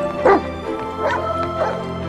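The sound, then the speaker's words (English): Dogs yip and bark while running along a pier toward each other, a few sharp, high, whiny bursts spaced over a steady tonal background. “The two dogs run along a pier towards one another. They arrive on a patch of green grass and play.”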